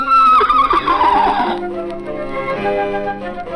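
A horse neighs in a children's audio story, giving a loud, shrill whinny that falls in pitch over about a second and a half, then fades into steady sustained tones.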